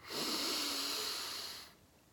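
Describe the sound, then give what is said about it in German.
A single long, deep breath taken during a short meditation exercise, heard as a steady airy hiss that holds for about a second and a half and then fades away, with no talking. “nur mal ganz kurz die Augen schließen und zweimal tief und lange einatmen und langsam und lange wieder ausatmen”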